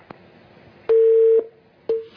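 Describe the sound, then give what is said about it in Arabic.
A telephone line tone follows a cut-off call: two steady, flat-pitched beeps, the first about half a second long and the second shorter, with a faint click before them and no talk. “قطع اتصال.”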